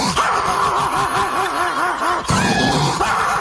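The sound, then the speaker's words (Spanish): Wheezy, grunting barks from a Pekingese dog that sounds asthmatic, delivered as a rapid run of short rasping yips. A brief higher tonal sound follows after a sudden break. “¿Oíste cómo ladra el perro pequinés?”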